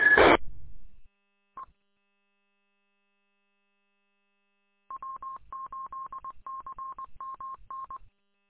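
An amateur radio gives a roger beep as the mic is unkeyed: a short burst of noise, then a single brief electronic tone. A long run of rapid, identical beeps at one pitch follows later.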